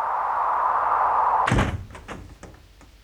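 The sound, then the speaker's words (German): An apartment door shut in a hurry: a single heavy thud cuts off a steady humming tone, followed by a few faint clicks and rattles as it settles. “Schnell die Tür zu. Schnell die Tür zu.”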